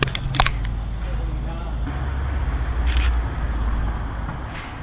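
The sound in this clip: A couple of quick mechanical camera shutter clicks go off as a photo is taken, with another faint click a little later, over a low hum of passing traffic.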